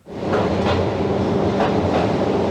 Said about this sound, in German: Langsam fährt die kleine Bahn schräg hinunter in den Tunnel, bis in eine Tiefe von 700 Metern.